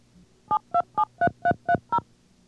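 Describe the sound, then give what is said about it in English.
Seven touch-tone DTMF beeps dial a phone number on a radio phone patch, each a short, clear two-pitch tone in an even, steady rhythm over a faint background hum. “Allowing the number to be read back assures the user that he entered it correctly before it is dialed.”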